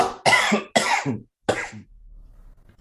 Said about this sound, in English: I'm like recovering from a cold right now. So I'm going to be coughing a lot during this podcast.